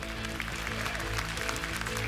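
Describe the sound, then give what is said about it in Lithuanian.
Applause from an audience as a player is introduced at a game event, a dense, steady patter of clapping throughout, alone without talk. “Plojimai.”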